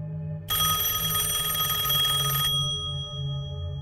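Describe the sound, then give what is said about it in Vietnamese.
Telephone bell rings late at night, one sustained metallic ringing burst lasting about two seconds over a steady low hum that continues after it stops. “Tôi bị tiếng chuông điện thoại làm cho giật bắn mình. Là ai đêm hôm lại gọi điện tới vậy nhỉ?”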